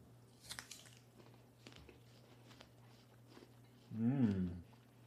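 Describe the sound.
Crisp apple being bitten and chewed: a sharp crunch early on, then faint chewing noises and a short voiced murmur toward the end.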